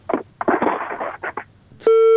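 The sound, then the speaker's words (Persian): A telephone call drops on a line with poor audio: a short stretch of choppy, broken sound gives way to one loud, steady electronic tone that holds through to the end. “اینه ما خود گفتیم که مشکل در صدا هست. بالاخره تماس قطع شد.”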